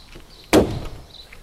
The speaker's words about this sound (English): And if I lift the bonnet up, listen to the sound that the bonnet makes.